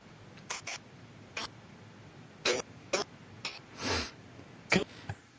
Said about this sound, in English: Was that a sneeze? Did you manage to block a sneeze?